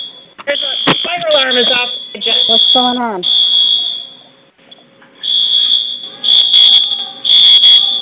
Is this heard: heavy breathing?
no